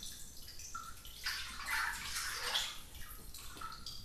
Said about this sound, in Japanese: 体を清めた後は、お湯に浸かって温まりましょうか。